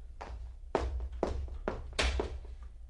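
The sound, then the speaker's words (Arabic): Knocking on a door: several dull, hollow thuds land in an uneven run, fairly soft over a low steady hum. “من؟ انتظر يا من تطرق الباب.”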